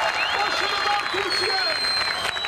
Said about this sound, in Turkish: Çok sayıda kişi Türk bayraklarıyla, tezahüratlarla milli takıma destek verdi.